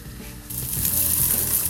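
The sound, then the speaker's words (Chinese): Rehydrated dried shiitake mushroom strips hitting hot oil in a pan where tofu was just fried, bursting into a loud, steady hiss and crackle that holds to the end. “香菇丝就直接下。 好，爆香。”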